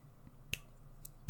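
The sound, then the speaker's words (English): Finger snapping during a reported haunting: a few sharp, dry snaps spaced apart, one fainter than the others, over a low steady hum. “Gary and Jeff, saying, oh, there's finger snapping down here.”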